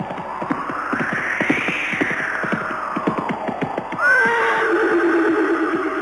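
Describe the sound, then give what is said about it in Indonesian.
A horse gallops in a steady, rapid rhythm of hoofbeats, with long neighing calls sounding loudly over the pounding hooves. “tiba-tiba saja, mereka dikejutkan oleh derap langkah kuda yang semakin lama semakin mendekat ke arah mereka.”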